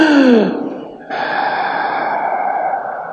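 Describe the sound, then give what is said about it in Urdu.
A sharp, drawn-in gasp of breath opens with a loud voiced inhale whose pitch slides downward. After a brief pause, a long, steady, breathy rush follows. “ایسے کر کے ایک سانس لی کھینچ کے”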